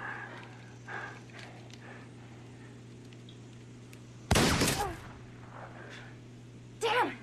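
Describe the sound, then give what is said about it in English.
Gunshots fired straight up at a rope: two sharp, loud cracks stand out sharply against a quiet, humming background, the first near the middle and the second near the end, each dying away quickly. “Try to shoot the rope. You know what I mean? Just point the gun straight up.”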